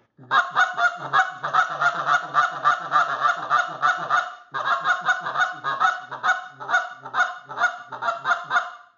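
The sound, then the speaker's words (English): A handheld goose call imitates the low ground murmur of two or three adult geese. Many quick, nasal honking clucks run in a fast, even rhythm in two loud bursts split by a short pause. “I'm just getting a little bit of ground murmur noise, and what you're really emulating is two or three adult geese getting the low murmur”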